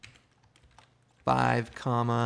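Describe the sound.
Typing on a computer keyboard: several soft, quick keystroke clicks come first, then a person speaks loudly over the rest.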